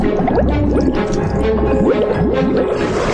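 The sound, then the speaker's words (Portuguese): Bubbles blow from a turtle's snout underwater: a dense, loud stream of gurgling, popping bubble chirps and wet squishes that runs throughout. “Bolhas saem pelo focinho dele.”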